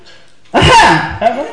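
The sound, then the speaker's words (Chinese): A performer's voice imitates a cough used as a secret signal to a girl upstairs: one loud, raspy burst followed by a shorter second one. “这咳嗽什么意思呀？ 暗号啊。”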